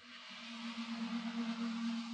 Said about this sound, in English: Instead, all I hear is cars over there. Listen to that.